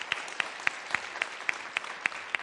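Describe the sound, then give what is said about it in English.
Applause for a Celebrate Recovery ministry group comes as sparse, evenly spaced sharp claps, about nine in a steady rhythm, over faint background noise. “So give a round of applause for Celebrate Recovery, because God's good.”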